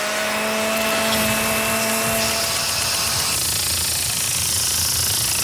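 A lawn mower engine runs on a residential lawn with a loud, constant droning roar and a buzzing edge. It continues steadily with no talk.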